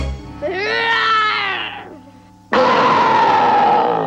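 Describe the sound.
A boy's voice imitates a big bear's roar. A drawn-out, strained vocal cry swells and then fades over about a second and a half. After a brief lull comes a loud, harsh, noisy roaring burst that holds steady to the end.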